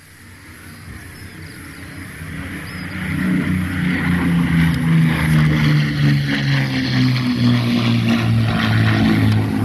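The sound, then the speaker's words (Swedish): Propeller drone of a De Havilland Mosquito aircraft flying over, a steady harmonic engine hum that swells louder over the first few seconds and then holds strong and sustained to the end, with no voices. “Här följer nu några överflygningssekvenser med De Havilland Mosquito.”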